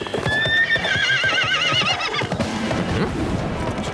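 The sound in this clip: Horses ridden by soldiers whinny in a high, wavering neigh over busy, loud clip-clopping hooves; the neighing fades after about two seconds while the hoofbeats keep clattering on.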